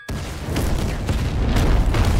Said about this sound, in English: Explosion. That's all I needed.